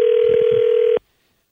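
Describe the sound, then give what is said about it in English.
A telephone dial tone: a loud, steady hum at one unchanging pitch that holds for about a second, then cuts off abruptly into silence. “See if we can dial them up.”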